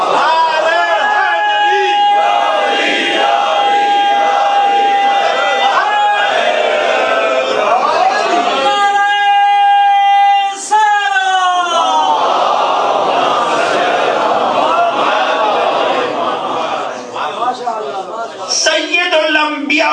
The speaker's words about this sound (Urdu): نعرہ حیدری کی صدائیں بلند کرنے والے میرے موالی بھائیوں